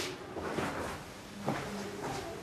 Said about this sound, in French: C'est un tiroir automatique comme un escalator.